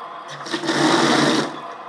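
Cold tap running full from a pumped mains supply while a washing machine fills, a steady hissing rush of water that swells louder through the middle and then eases, with no talking.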